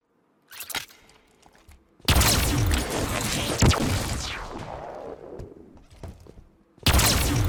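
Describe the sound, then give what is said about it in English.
A Delta Beam rifle fires in a video game. A short burst comes first, then a long, loud energy blast with a falling sweep that fades over several seconds, and another loud blast starts at the end. “So this is actually how the Delta Beam rifle sounds like.”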